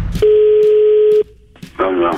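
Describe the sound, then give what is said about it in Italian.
Telephone tones as a call is dialed: a loud, steady single tone holds for about a second, then cuts out. A brief lull follows, and another tone returns near the end with a voice. “Chiamiamo il signor Sergio e gli facciamo credere di voler risolvere il suo problemino telefonico.”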